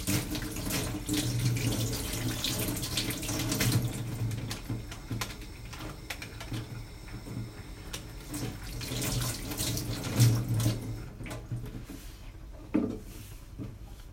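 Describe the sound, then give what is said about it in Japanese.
Tap water runs steadily from a faucet while food with a white film on its surface is rinsed under it. The even flow carries a few louder splashes and no talk. “ちょっと水で洗い流して”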